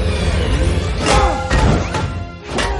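Heavy crashes and thuds come from an action-film fight on a metal structure as a man swings an iron bar. A few loud swelling impacts land over a dense, rumbling background.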